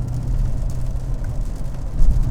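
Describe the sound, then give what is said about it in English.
A 400-horsepower V8 car engine gives a low, steady rumble that swells slightly near the end. No voices are heard. “As soon as you touch the throttle, it goes. It just has instant pickup. It's just amazing, the power. It's 400 horsepower V8.”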